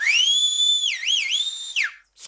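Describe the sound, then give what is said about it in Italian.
A piercing, shrill mouth whistle rises sharply and holds a high, steady note, warbles briefly in the middle, then falls away and cuts off. “lanciò un fischio lacerante trapanandomi i timpani”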